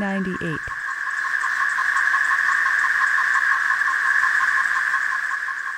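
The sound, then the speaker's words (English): Male periodical cicadas produce calling and courting songs, a loud, shrill, continuous buzzing drone with fast pulsing texture that holds steady throughout, with a voice speaking briefly at the very start. “Calling and courting songs of the Major Cicada tretisson. We've not heard this sound since the summer of”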